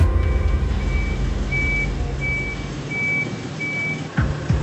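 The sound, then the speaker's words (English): Reversing beeps from a tow truck removing a vehicle at a drink-driving check: a steady series of evenly spaced, high electronic tones over a continuous low engine rumble. “The drink driving IO from TP is aware of the case, so we are going to tow the vehicle away to a holding area.”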